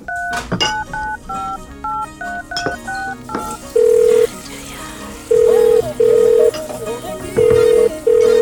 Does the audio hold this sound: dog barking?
no